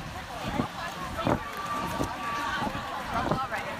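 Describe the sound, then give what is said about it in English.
Running footsteps from a runner at the start of a 5K race in Philadelphia, a few dull thuds at an even stride over a steady wind-like rush. “We just started our 5K run, and I am here running.”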